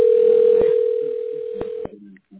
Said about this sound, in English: we're dialing the tax specialist.